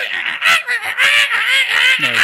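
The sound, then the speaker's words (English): A human voice imitates the squawking of the loud green parrots of Los Angeles, giving a quick run of harsh, nasal, honking squawks repeated without real words. “Like, there's these green parrots in L.A. They're loud as shit.”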